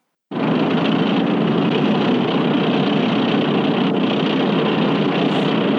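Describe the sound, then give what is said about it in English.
A sci-fi sandcrawler vehicle rolling along, its engine sound built from Philadelphia train clatter and motor noise, starting abruptly as a loud, dense, steady rumble that continues unchanged throughout. “Okay, so up next, Jawa Sandcrawler rolling along.”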